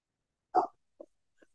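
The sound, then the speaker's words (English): A dog barks in the background with one short, clear bark, then two much fainter, clipped yips, separated by silence. “We're going to have to wait because my dog's going to bark for a few minutes here.”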